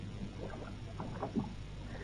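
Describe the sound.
Oars working a lifeboat as the crew rows away from a torpedoed, burning ship at night, faint soft splashes and knocks over a low, steady background wash.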